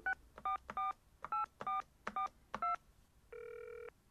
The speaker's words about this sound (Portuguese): Telefona se tiveres o número dela